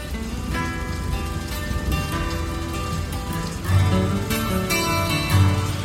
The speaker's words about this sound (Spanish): Llueve mucho hoy, pequeño hermano.